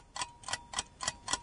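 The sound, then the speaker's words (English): Ticking of a quiz game timer: five sharp, even ticks at a steady pace, clear and alone with no talk. “Here we go. Here's your timer.”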